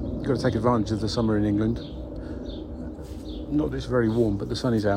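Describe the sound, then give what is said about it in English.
Birds calling, including soft cooing, in an English garden on a sunny summer morning, heard faintly beneath a person talking steadily. “And also listening to the birds in the background, having a bit of a tweet”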